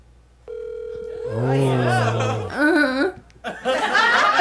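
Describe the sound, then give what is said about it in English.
A steady electronic telephone tone sounds on speakerphone for about two seconds after a call is placed through Siri. Laughter overlaps the tone, and voices then talk. “Siri, call Robert Rodriguez on speaker.”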